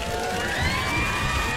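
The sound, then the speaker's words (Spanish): Crowd cheering for a birthday, a continuous loud wash of excited whoops and high shouted voices with whistle-like tones running through it. “Producción, unos aplausitos porque acaba de pasar su cumple.”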